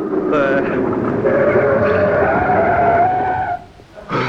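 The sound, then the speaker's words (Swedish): A car brakes to a stop at the curb: a sustained squealing screech lasting about three and a half seconds, its pitch sliding downward, then cutting off abruptly, followed by a short burst of noise. “Stanna vid trottoaren här borta nu, ni snäller. Vid trottoaren. Nej, inte på trottoaren, vid trottoaren. Bromsa nu då, bromsa, bromsa.”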